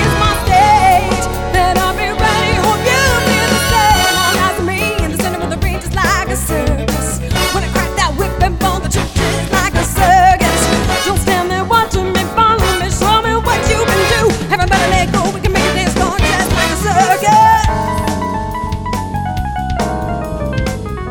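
A big-band arrangement of a pop song plays loud and continuous, with dense layered instruments and a busy, driving rhythm throughout.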